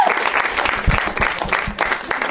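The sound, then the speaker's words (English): A studio audience applauds to welcome a guest: dense, steady clapping from a crowd that holds at an even level. “Please welcome the beautiful brain of David Cross, everybody. Now is when you clap.”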